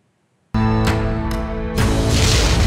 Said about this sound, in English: Here she is taking a flamethrower to her own book.